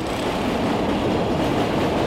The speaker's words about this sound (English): another train just went by overhead.